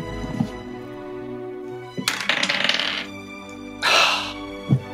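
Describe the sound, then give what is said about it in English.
A twenty-sided die is rolled during a tabletop role-playing game, making two bursts of bright rattling clatter as it tumbles and settles. Soft music hums underneath. “Using my first D20. Didn't you use that earlier and you rolled back? I did, and I've been rolling well with it, so.”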